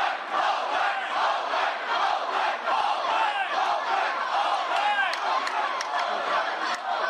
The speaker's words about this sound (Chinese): 每次警方推进的时候，抗议者加大声势，口号更响。